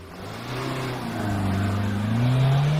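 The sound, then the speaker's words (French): A car pulls away from the kerb: a loud engine drone whose pitch climbs steadily as it accelerates. “j'aperçois une bagnole qui décolle du trottoir et se met dans notre sillage”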